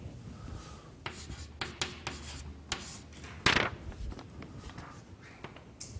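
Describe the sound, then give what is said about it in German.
Writing on a board during a maths lecture: many faint, short scratching strokes in an uneven rhythm, with one louder stroke near the middle. “Ich schreibe es jetzt mal in der umgekehrten Schreibweise dahin.”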